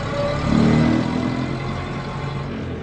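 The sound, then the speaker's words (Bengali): A car engine pulls away and keeps driving through a foggy dawn, loaded with passengers. A steady, broad engine rumble swells briefly near the start, then settles into an even drone with no voices. “Kumar Tridip ও আমরা দুজনে পেছনের সিটে ঠাসাঠাসি করে বসতেই গাড়ি ছেড়ে দিল”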